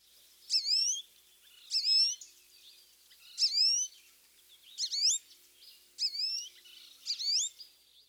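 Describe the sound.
American goldfinch whiny calls: six high, thin, rising and bending notes that sound plaintive, evenly spaced and alone with no other sounds.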